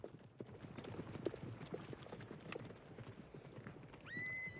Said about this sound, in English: They ride away and off through a canyon.